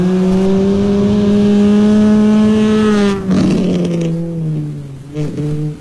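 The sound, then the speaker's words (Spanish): A race car passes over a bridge during a car race: a loud, steady engine drone holds its pitch, then a brief rough burst as the engine note drops lower and the sound tails off unevenly. “Ahora tenemos el videito del Toti Marinero también pasando por el puente. Ahí se escucha el fondo, ahí pasó por el puente.”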